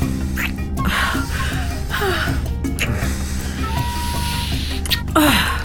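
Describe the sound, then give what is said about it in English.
Simulated heavy breathing from a half-human game character, with gasping, raspy breaths repeating over a steady tonal background. “Humans have to breathe sometimes, and as I'm half human... I understand. But, yeah. You will notice that I'm programmed to simulate heavy breathing.”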